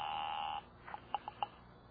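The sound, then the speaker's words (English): Telephone ringing tone heard while placing a call to a library: a steady, mid-pitched buzzing tone lasts about half a second, then stops and is followed by a few soft, brief clicks. “I'm ringing the library.”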